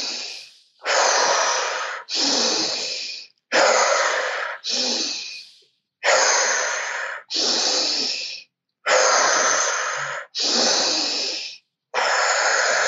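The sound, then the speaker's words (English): Deep breaths in and out, paced in an exercise. Nine loud, airy breath sounds come in steady pairs, each about a second long, with short silent gaps between them. “Deep breaths in and out. Five more.”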